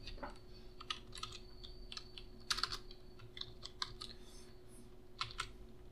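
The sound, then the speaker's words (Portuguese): Quiet, irregular clicking of computer keyboard keys typed with only one hand, with many uneven keystrokes, a few slightly louder taps, and a faint steady hum underneath. “É muito estranho digitar só com uma mão, cara. Porque com a outra eu tô segurando o microfone.”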